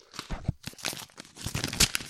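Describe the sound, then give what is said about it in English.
Paper crinkling and tearing as a loud envelope is opened, with many irregular rustles and crackles and no voices. “It's a loud envelope. Take your time. Okay. I think that went well. Sound effect was awesome.”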